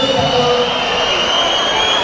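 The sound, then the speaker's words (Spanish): Crowd at a basketball game, SBB vs. Granada, protesting a referee's call: a dense, loud and continuous roar of many voices that holds steady throughout. “El público protesta enérgicamente.”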